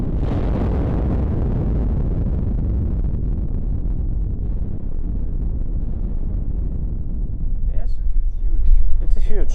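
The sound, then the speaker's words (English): Rock blasting at a quarry, 180 meters away, gives a deep, sustained rumble heavy in the low end that slowly fades, with scattered crackles and clicks near the end. “Holes are drilled for the next blasts. Now we feel the blasting works. It's 180 meters from this point. To signal this blast.”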